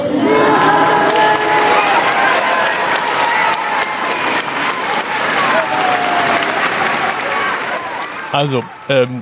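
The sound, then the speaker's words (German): Dense, sustained applause from a crowd greeting a passing religious procession of clergy carrying a glass ampoule in Naples. Loud, steady clapping and crowd noise fill the whole clip, with voices mixed in and a brief spoken phrase near the end. “großer Applaus”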